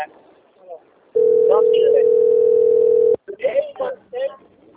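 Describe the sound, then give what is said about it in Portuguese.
A telephone sounding for an incoming call: a steady, single-pitched electronic tone holding for about two seconds, with brief talk before and after it. “É o Santo André que tá me ligando.”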